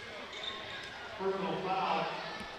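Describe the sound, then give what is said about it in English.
A basketball is dribbled at the top of the key during a game, its bounces fairly faint under a commentator's continuous play-by-play voice. “Jones dribbles top of the key”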